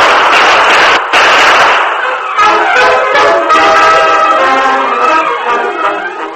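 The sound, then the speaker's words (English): Staged gunshots in a Western drama: loud, dense blasts fill the opening seconds, then give way to a sustained ringing, tonal sound that carries on at high volume. “Then a shot rang out behind the Lone Ranger and Tonto. Tonto, you're hit! The Lone Ranger dropped down beside his Indian friend, then turned and fired as a figure leaped behind the building.”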